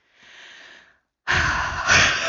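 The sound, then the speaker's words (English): A deep breath taken before a long explanation: a soft, airy inhale, a short pause, then a loud, broad rushing exhale with no talk. “I'm taking a deep breath because I'm going to, like, it's going to be a lot.”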